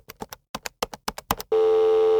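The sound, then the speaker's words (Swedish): A phone call being dialed: a quick series of short keypad tones in small clusters, then a steady, unbroken line tone that holds to the end, with no voices. “Och med det kanske vi ringer Anna helt enkelt.”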